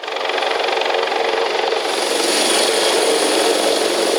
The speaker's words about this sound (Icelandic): Hátíðardagskráin hófst með miklum tilþrifum þegar þyrla gæslunar lenti fyrir utan Hörpu.